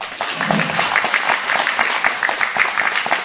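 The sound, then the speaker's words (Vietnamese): A crowd claps together on cue, producing loud, dense, steady applause of many overlapping hand claps that stays at a constant level throughout. “Vỗ tay đi.”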